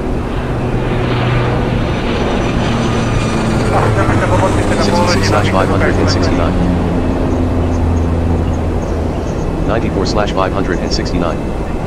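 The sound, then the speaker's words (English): An airplane taking off from a runway, a loud, steady engine roar that holds through the whole stretch, with muffled voices surfacing over it at times. “SK-737, you are clear to take off from the runway.”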